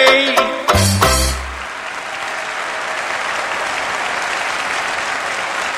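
At the National George Formby Finals, a song ends with a few last sung and strummed notes. Loud audience applause follows at once and holds steady as a thick, sustained roar of clapping.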